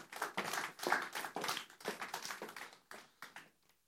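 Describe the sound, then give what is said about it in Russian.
Audience applause at a concert: steady, dense clapping from many hands that thins out and fades away in the final second. “И еще чуть-чуть поаплодируем. Спасибо, спасибо.”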